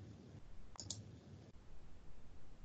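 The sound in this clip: Mouse clicks on a web page while an online grant application is being submitted: a quick, faint double click, sharp and high, over a low steady background hiss.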